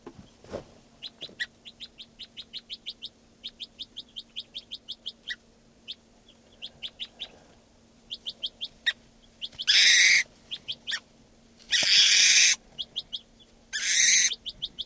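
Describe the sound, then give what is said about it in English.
Bird calls: many short, high chirps repeated in quick rhythmic runs with brief pauses, over a faint steady low hum. Three loud bursts of broad noise break in near the end. “Recording this bird 590. Here. Stop. This is a bird”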